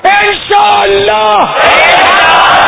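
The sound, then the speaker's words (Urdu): A crowd at an Islamic religious gathering shouts a loud slogan, beginning with strong, tonal shouting that swells into a broad, sustained massed roar. “تو اس نیت سے زوردار نعرہ لگائیے کہ کلیجہ پھٹ جائے. کس کا؟ شیطان کا.”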